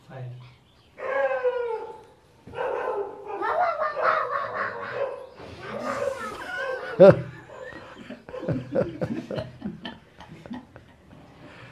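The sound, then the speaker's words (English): Dogs bark and yowl in a mix of deep and high pitches, forming a ragged, continuous chorus with a sharp, louder yelp near the middle. “Everything from bass to soprano there. Some dogs are bass and baritone,”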